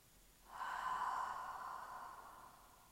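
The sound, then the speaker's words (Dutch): A single long exhale through the mouth: a steady, breathy rush that swells quickly, holds, then slowly fades. No one speaks. “Hou vast. Adem uit door de mond.”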